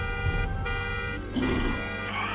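Car horns honk at an SUV on a wide town street, loud sustained tonal blasts that overlap and shift in pitch a few times without pause.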